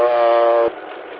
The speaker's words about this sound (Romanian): Locomotivele sunt de cale înguste de 750 de milimetri și sunt produse la noi.